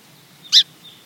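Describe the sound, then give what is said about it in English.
A single short, high-pitched songbird call note sounds as a sharp, clipped chip about halfway through. It stands alone over a quiet background with a faint thin whistle around it. “Many songbirds, though, are still able to communicate with call and alarm notes.”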